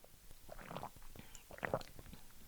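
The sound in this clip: A person takes a couple of small sips of a drink, giving faint, soft wet mouth and swallowing sounds in two short bursts, with no talking.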